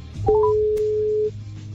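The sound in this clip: Telephone ringing on an outgoing call, heard as one steady, even tone lasting about a second after a few quick rising beeps, then stopping.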